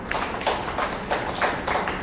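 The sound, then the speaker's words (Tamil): Hand clapping from an audience answering a call to clap: a few irregular sharp claps over a steady noisy background, with no clear rhythm. “கை தட்டு.”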